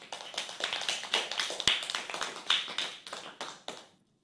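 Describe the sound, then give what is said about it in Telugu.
Applause from a group at a school program after children recite Sanskrit verses from the Bhagavad Gita: many dense, overlapping hand claps, fairly steady, then tapering off and stopping. “Claps కొడదామా?”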